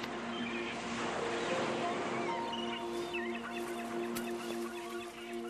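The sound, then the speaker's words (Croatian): Seagulls give faint cries on a windy coast, their calls surfacing over a soft bed of wind noise and a steady tonal hum, all at low volume. “Gotovo uvijek puše vjetar. Nije to nekako soljubiva obala na kojoj bi se bilo ugodno sunčati. Kriče galebovi.”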